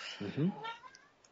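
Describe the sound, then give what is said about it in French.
A cat meows once, short and fairly loud, in a kitchen where tuna, onions and garlic are being prepared. “Ça, c'est le chat.”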